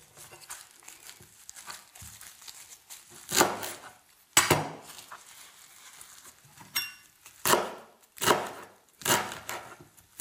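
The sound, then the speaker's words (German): Knife chopping fresh wild herbs such as ground ivy and yarrow: several crisp, cutting strikes at uneven intervals, growing more frequent and louder later, with quieter rustling between them. “Und ich werde jetzt diesmal diese Kräuter hier schneiden.”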